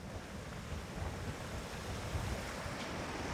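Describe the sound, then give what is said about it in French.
A mountain stream rushes steadily through a glacial valley as a continuous broad hiss and roar, fairly quiet and unchanging throughout with no breaks. “on change de rive, on traverse le cours d'eau de la coupe de Varilhes”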